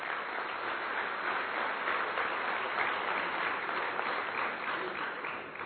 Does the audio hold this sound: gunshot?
no